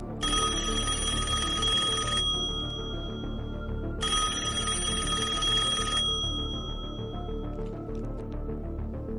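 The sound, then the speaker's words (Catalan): Telephone ringing on an outgoing call: two long bursts of high, trilling electronic ringing separated by a pause of about two seconds, loud and steady, with no talking. “estem trucant.”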